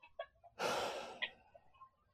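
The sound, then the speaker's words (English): One deep breath is taken, a soft breathy rush of air lasting about half a second before it trails off. It is faint and stands alone without talk. “Now we're going to, let's take a deep breath. Let's take a deep breath.”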